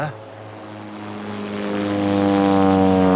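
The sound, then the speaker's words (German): Propeller airplane flying over on its approach path to Munich airport, a loud droning engine with strong steady harmonic tones that swells gradually louder throughout. “Ja, aber es kann trotzdem hier passieren. Wir gehören quasi zur Einflugschneise für den Münchner Flughafen.”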